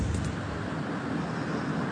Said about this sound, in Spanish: Y ya vemos que por ahí, por esa zona, hay bastante viento, ¿no?